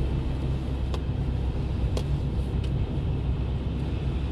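A car drives past a high school while looking for a skatepark, giving a steady, even low road rumble with a few faint clicks and no talk.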